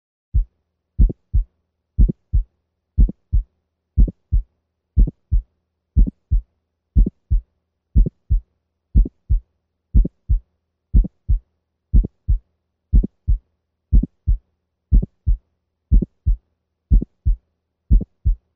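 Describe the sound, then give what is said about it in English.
Dog heart sounds at the aortic valve region with aortic valve stenosis, at 60 beats per minute. An aortic ejection click falls between the first and second sounds, giving a lub-click-dup cadence of low thuds. The cycles repeat evenly about once a second, with no talk. “We will now listen at the aortic valve region to an aortic ejection sound as it might sound in a dog with aortic valve stenosis. We will listen first at 60 beats per minute. The sound cadence is 1-click-2 or lub-click-dup.”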